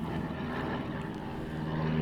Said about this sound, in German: Bei uns sind ein paar Flugzeuge, die ein bisschen lauter sind, deswegen.